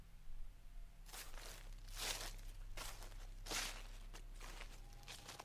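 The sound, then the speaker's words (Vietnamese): Soft rustling footsteps outside in a banana garden, with a few faint, crunchy, swishing steps rising out of quiet background noise and a low steady hum. “Nó nghe có tiếng bước chân loạt soạt. Ai đó đang đi ở bên ngoài vườn chuối, bên kia cửa sổ.”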